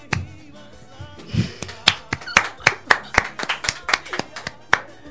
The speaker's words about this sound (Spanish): Un aplauso.